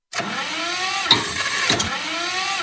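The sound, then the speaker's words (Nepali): A farm tractor that often breaks down sputters as it is started on a morning, a steady rumbling engine drone broken by two sharp bursts. “का हो गल tractor में सवेरे सवेरे इतना खुखी आवत रह ट्रैक्टर के जल्दी के स्टार्ट करो ना खेत जोते जाए के बा”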